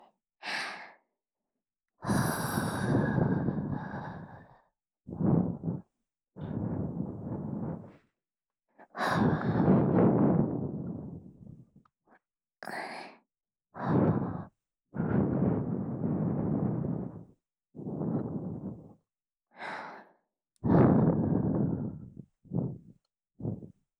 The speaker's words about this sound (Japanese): このままもう一度お耳をふうふうさせていただきますね。